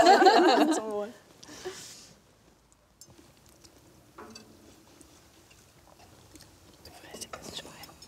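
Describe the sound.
Chewing from people eating oat risotto with mushrooms and venison loin in red wine jus. A brief voice at the start gives way to faint, quiet chewing and soft mouth noises scattered through the rest.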